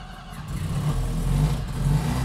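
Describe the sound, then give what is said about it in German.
A rotary-engined Ro80 car, left standing for half a year, catches and runs after the ignition key is turned, its engine settling into a loud, steady low hum with slight rises in revs and no talk over it. “Und jetzt Zündschlüssel rum? Wird eine Weile dauern, bis der anspringt, weil er erst den Sprit alles klar hintransportieren muss.”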